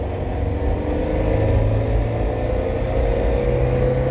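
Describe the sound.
A car engine runs in second and then fourth gear, said to sound odd. It gives a loud, low, steady rumble with no distinct rev changes, and no one speaks.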